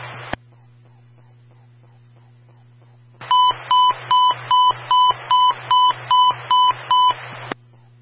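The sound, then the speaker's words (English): Emergency transmission tone test on a fire-department radio channel: a burst of static, a quiet stretch with faint ticks over a low hum, then a steady string of short, high, regular beeps ending in a sharp click. “For the emergency transmission tone test.”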